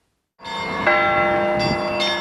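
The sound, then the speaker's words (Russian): Church bells peal at a bell-ringing festival held outside a church in Krasnodar during Christmastide. A few fresh strikes add to a sustained, shimmering metallic wash of overlapping tones. “А теперь репортаж о фестивале колокольного звона, прошедшего в столице Кубани и тоже в святочные дни.”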